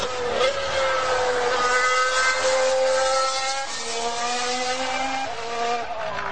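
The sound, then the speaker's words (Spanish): A Mercedes Formula 1 race car engine screams past in a loud, high-pitched, continuous whine rich in harmonics, its pitch stepping slightly up and down a few times. “que te va a atropellar el Mercedes. Que viene el Mercedes.”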